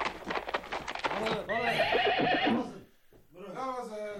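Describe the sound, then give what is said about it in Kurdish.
Horses neighing with hooves clopping in a courtyard: a clear, loud whinny rises over steady clip-clop footfalls. “دەتوانن ئەسپەکانیشتان لە نێو حەسارەکەدا ببەسنەوە. ئالەوێ ئاو گزەریان پێ بدەن.”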